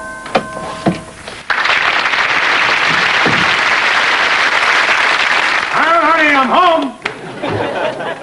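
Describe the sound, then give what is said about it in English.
Canned laughter from a TV sitcom laugh track swells into a sustained, dense wash of audience laughter with clapping-like noise for several seconds, with speech before and after it. “I'm not sure this was recorded in front of a live studio audience because they didn't say it. I don't believe it was. So there's the canned laughter.”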